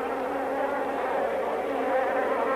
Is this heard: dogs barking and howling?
no

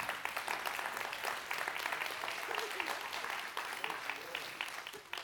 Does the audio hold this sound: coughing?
no

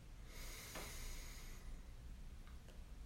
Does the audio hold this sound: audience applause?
no

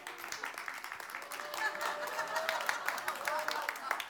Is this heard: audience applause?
yes

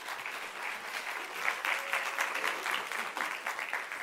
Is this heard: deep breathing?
no

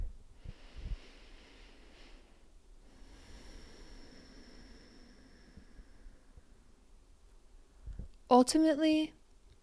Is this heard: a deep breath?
yes

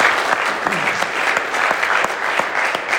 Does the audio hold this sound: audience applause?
yes

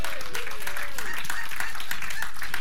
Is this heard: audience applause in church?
yes

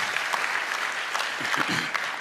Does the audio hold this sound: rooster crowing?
no

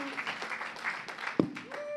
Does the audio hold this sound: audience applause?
yes

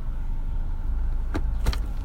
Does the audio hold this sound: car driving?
yes

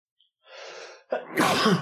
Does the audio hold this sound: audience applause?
no

